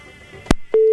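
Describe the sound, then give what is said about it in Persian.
A telephone busy tone after a call is cut off: a sharp click and a short soft blip, then a steady, loud tone begins and holds to the end. “بله تماس قطع شد.”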